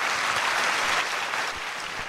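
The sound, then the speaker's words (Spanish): Audience applause at a religious sermon, a dense, steady clapping from many hands that stays loud and even, easing slightly toward the end. “Si usted quiere, aplauda, y si no, no.”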